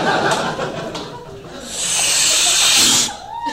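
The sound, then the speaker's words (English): A voice imitates a huge inhale, drawing on a whole joint in one breath. Some vocal sounds come first, then a long, loud hiss of breath held for about a second and a half before cutting off. “That's God inhaling a whole joint with one breath because, you know, he has godlike lungs.”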